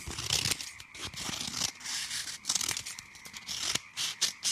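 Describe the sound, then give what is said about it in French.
Scissors snip and crinkle through a thin, easily torn material while someone cuts out rounded shapes and carefully works around narrow arm pieces. Many quick, papery cuts and rustles run in an uneven rhythm, with no voices. “Je découpe tout ce qui est arrondi. Faut faire attention avec les bras parce que ça se déchire facilement.”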